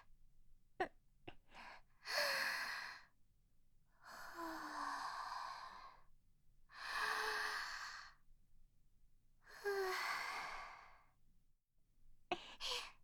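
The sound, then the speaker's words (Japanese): Deep breathing by a person: four long, airy breaths separated by short pauses, with a few brief clicks at the start and near the end and no talking. “ちょっと、深呼吸させてください。”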